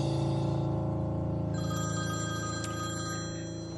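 Telephone bell ringing in a steady, bright, tonal pattern that holds throughout and fades slightly toward the end, with no voice answering.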